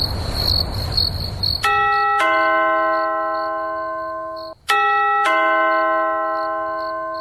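A doorbell rings at the door late at night: a two-tone ding-dong chime sounds, fades, then rings again as a second ding-dong. A steady high insect-like chirping runs behind it.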